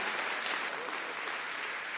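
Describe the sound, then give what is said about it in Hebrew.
An audience of about a thousand people at an international conference applauds with dense, steady clapping that stays even and continuous for the whole stretch. “כל הכבוד לכם, קודם כל. כפיים לכם.”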